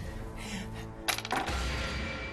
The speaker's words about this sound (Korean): 자, 그럼 다음 문제를 풀려면 계속해서 주사위를 던져 주세요.